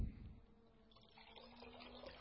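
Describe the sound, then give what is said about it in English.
Water poured from a jug into a cup makes a quiet, steady trickling rush that runs for about two seconds. “Right here, I've got a jug of water, and I'm going to pour it into this cup.”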